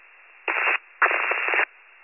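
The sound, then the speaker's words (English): Two bursts of radio static from another unit keying up on an emergency radio channel. The short hiss is followed by a longer, slightly crackling one, with quiet between them. “There's another unit keying up. Lost static.”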